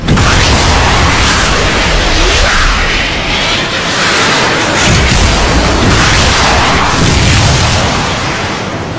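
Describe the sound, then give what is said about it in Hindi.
Cruise missiles launching in a salvo of three toward an enemy position, a loud, sustained roar and rushing blast with swelling booms that fill the whole stretch without any voices. “तीन cruise missile fire करें। 1, 2, 3 fire.”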